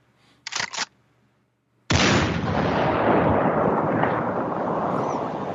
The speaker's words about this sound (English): So that is a sniper shot I need to pull for.